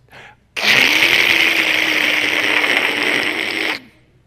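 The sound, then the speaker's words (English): Steel skateboard wheels roll on playground asphalt with a loud, steady, grinding whir and a low hum underneath. The sound starts abruptly, runs unbroken for about three seconds and then cuts off. “the steel wheels are making this sound on the asphalt that's”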